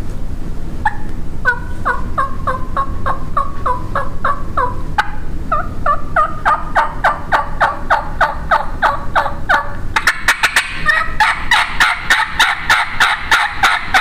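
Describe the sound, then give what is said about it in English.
Turkey hen yelping imitated on a turkey call, many crisp, rhythmic yelp notes in repeated runs that grow faster and denser toward the end. “you'll get to hear, and it'll show you too that there's about 300 million different sounds in yelping”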